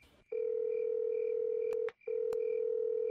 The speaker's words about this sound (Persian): پس به نظرم بریم باهاشون تماس بگیریم ببینیم میهمان حیات شب نشینی امشب ما میشن یا خیر.